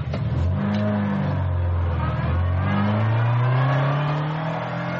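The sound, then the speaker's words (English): A car drives off with a loud engine that revs up, dips, and then climbs in pitch again as it accelerates away. “Off to the woods they drove”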